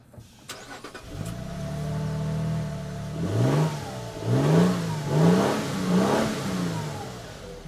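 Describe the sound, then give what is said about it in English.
Engine of the new Lexus GX SUV revving: a steady idle, then a few quick throttle blips, each rising and falling in pitch, loud and alone. “All right, let's try the new GX and see what this sounds like.”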